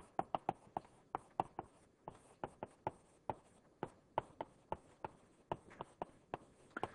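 An equation being written on a board during a cosmology lecture: many sharp, quick taps and strokes in an uneven rhythm, with no talk over them.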